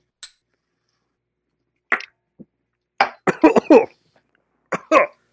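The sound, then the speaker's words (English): Coughing from a person who has just downed a shot of liquor: a couple of separate coughs, then a rapid run of harsh coughs, and two more at the end, all loud against otherwise quiet surroundings. “I coughed.”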